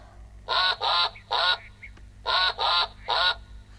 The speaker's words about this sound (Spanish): ¡Pato!